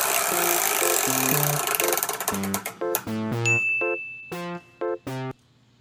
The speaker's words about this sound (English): Spin that wheel. I'm doing it right now. Not this. And this is how billionaires do it. And there it goes.